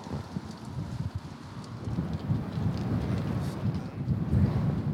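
Wind drones against a window, a steady low buffeting rush that swells slightly in the second half, with no other distinct sounds.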